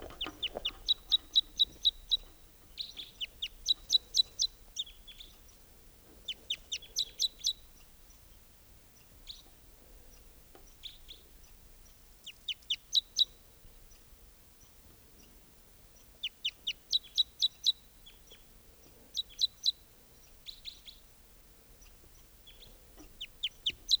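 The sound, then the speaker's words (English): A singing male bird of song type 2 repeats short, high-pitched trilled phrases built from rapid clicking notes. The phrases come in bursts every few seconds over a quiet background, recorded at 7:07 a.m. “there's a singing male type 2 here. That recording, here's that bird.”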